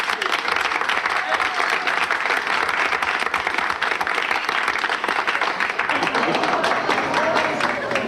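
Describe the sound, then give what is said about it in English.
Audience applause greets a comedian at a comedy night: continuous, dense clapping that stays loud and even for several seconds without a break. “So let's put our hands together and give a nice comedy corner welcome to Mr. Jim Tabaret.”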